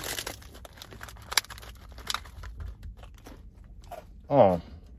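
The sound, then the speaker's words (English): Crisp crunching and chewing as someone eats Christmas cookies, with a few sharp bites and soft crinkling between them. The sounds are quiet and close, and a short vocal sound comes near the end. “These Christmas cookies taste like actual Christmas cookies.”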